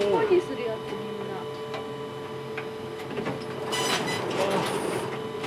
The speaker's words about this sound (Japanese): のり付けしてるんですかその冊子ののり付けをする機械